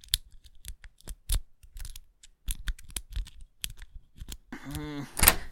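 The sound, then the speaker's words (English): Metallic clicking and scraping of a lock being picked with a hair clip, many sharp, irregular ticks and scratches at low volume, with a voice entering briefly near the end. “just let me borrow a hair clip. If I can pick this lock...”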